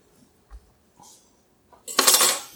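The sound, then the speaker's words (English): Boiled potatoes are shaken in a colander over a pot. A few faint taps and knocks lead into a louder, brief rattling rush near the end. “Give this colander a shake just to make sure it's all off of there.”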